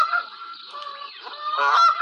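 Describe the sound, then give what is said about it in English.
Birds honking with loud, nasal, goose-like calls. Several honks come in an uneven series with brief gaps between them, and the loudest cluster comes near the end. “Oh, nature. I miss nature. I want to go to that place where those birds wake me up in the morning and I'm grumpy with them.”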